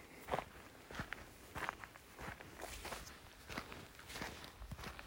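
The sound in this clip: Footsteps on an evening walk in a forest: many soft, steady steps in an even walking rhythm, faint and alone.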